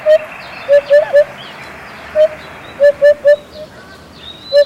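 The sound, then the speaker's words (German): A hoopoe calls near a vineyard with soft, hollow, low hoots. Two bursts of three notes are separated by single notes, and faint higher chirps come in above them. “Und das Schöne ist, dass dieser Ruf, der hier, ihm eben auch den Namen gegeben hat. Zumindest den lateinischen. Upupa Epops heißt er da.”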